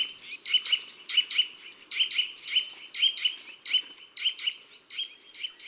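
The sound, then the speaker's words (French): Eurasian nuthatch giving repeated sharp whistled tuit calls in woodland: many quick, high, clear notes in a fairly regular rhythm, fairly faint and alone with no voices. “Des tuit-tuit dans les bois, pas de doute, c'est la citelle, en toute saison.”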